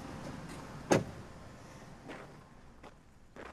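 A car being locked up: one sharp, loud click stands out, followed by a few fainter, softer mechanical sounds against a low background hum.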